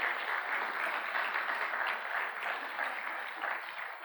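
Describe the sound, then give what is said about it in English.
A church audience applauds its volunteers during a morning service, a steady, even wash of many hands clapping throughout with no voices heard. “And so I just want to give a big thank you to every single one of you that makes Eastside and this church a great place. And can we just give all of our volunteers just a great big hand here this morning?”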